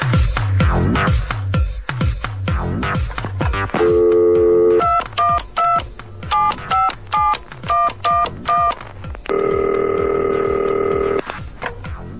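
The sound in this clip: Telephone tones as a call comes in: loud runs of short dial-pad beeps in quick, steady pulses, between longer sustained ringing tones, over a pulsing background.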